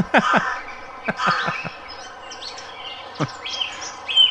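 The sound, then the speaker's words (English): Birds chirp outdoors in the early morning with a few sharp, high calls and quick trills. The chirps come in irregular bursts separated by brief quiet gaps. “We got an early morning recording session going on. I don't know if you can hear the birds chirping.”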